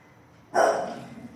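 A single sharp bark from a female dog bursts out alone after a quiet moment, then trails off into a short fading tail.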